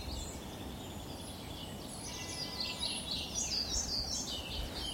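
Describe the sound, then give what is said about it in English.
An exotic-sounding bird sings in faint, high, repeated chirps and trills that grow busier in the second half, over a steady low background hum. “I see one. It is the most exquisite bird.”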